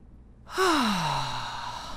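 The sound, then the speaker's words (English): A deep breath let out as a long, voiced sigh during a guided group breathing moment. It starts with a sudden onset, its pitch slides downward, and a breathy exhale trails off steadily for over a second with no talk. “So we'll take one nice big breath together. Gathering our whole selves up and letting it out.”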